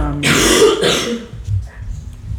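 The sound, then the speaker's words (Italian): A persistent cough: two loud, rough bursts in quick succession, followed by a quieter stretch of low background noise. “La tosse c'è ancora.”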